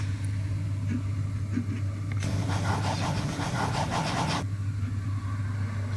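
A ballpoint pen scratches over paper sheets in one continuous stretch of about two seconds, a dry rasping set between quieter moments over a steady low hum.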